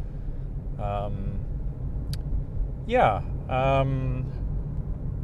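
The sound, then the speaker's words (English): Steady low rumble inside a car driving to the gym, a constant engine-and-road drone running beneath a voice talking on and off. “So yeah, I thought I would just record as I'm driving to the gym.”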